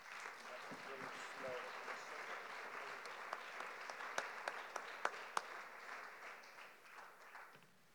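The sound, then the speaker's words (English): A theology conference audience welcomes a speaker with sustained applause, dense steady clapping with a few sharper individual claps standing out before it thins toward the end. “Brother B.J. Wilmoth is coming to speak to us on a theology of tongues. Would you welcome him today with a round?”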